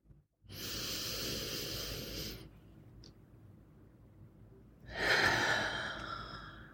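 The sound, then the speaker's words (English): A deep breath drawn in through the nose and released out through the mouth: a long, airy inhale lasting about two seconds, a pause, then a louder, rushing exhale that slowly fades. “take a moment for yourself and take a deep breath in. Okay? So we're going to go in through our nose and out through our mouth. Deep breath in.”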